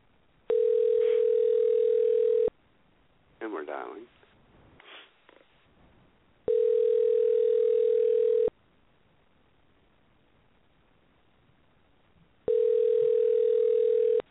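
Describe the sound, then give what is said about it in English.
Telephone ringing tones as a call is placed to a radio call-in line: three long, steady, mid-pitched beeps at even intervals with quiet gaps between, and a brief burst of muffled noise after the first. “Okay, now we're good. And we're dialing.”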